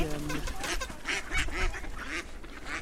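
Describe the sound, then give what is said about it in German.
Mandarin ducks call while being fed, giving many short, nasal quacks and honks in an irregular burst over a noisy background. “Wissen Sie eigentlich, wo die herkommen, die Mandarinenenten? Die kommen vom Templiner See, weil alles dicht ist da.”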